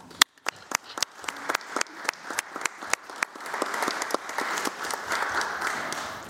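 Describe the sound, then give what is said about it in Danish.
Audience applause for a guest in a Danish studio opens with a few sharp, separate claps. It quickly thickens into a steady, dense round of clapping from many hands that keeps a fairly even level to the end. “Jeg synes, vi skal give øh, Niels Jørgen en hånd.”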